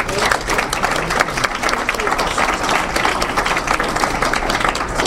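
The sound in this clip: Steady applause from a meeting audience welcoming a member back to give her icebreaker speech, a dense, even clatter of many hands that holds at a constant level for about five seconds.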